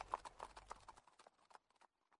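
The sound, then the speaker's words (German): Horses' hooves clop slowly through town streets in a steady rhythm of many light, hollow knocks, louder at first and then trailing off fainter toward the end, with no voices. “Langsam reiten sie durch die Straßen.”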